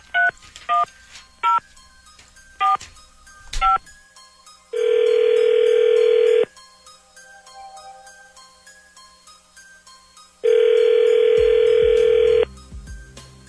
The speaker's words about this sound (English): Dialing at random. Okay, here we go.